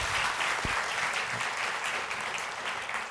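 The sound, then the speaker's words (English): An audience at a church service applauds to welcome a guest speaker with steady, dense clapping that stays strong throughout and fades slightly at the end. “So would you join together in giving Ken a warm welcome to Grace Ann Arbor this morning?”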